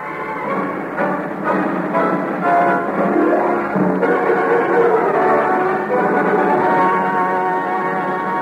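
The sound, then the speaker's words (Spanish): Trains at Rome's Termini station make a loud, continuous rolling rumble, layered with sustained horn-like tones that shift and overlap throughout. “El poeta Pablo Neruda en Roma. Estación Termini. Un grupo de manifestantes ha causado algunas molestias a los apresurados viajeros que, como todos los días, abarrotaban los andenes de la estación.”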